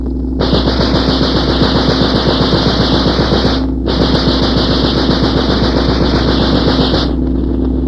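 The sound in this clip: A machine gun firing in a war drama: two long, loud, rapid streams of shots with a brief break between them, over a steady low engine drone.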